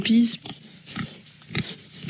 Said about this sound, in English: Around a dozen pigs are also reared outdoors here at Ferme du Bois.